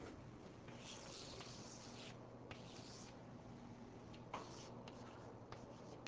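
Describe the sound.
Faint scratchy strokes of writing on a board during a mathematics lecture, a series of soft rubbing marks with one sharper tap near the end, over a low steady hum.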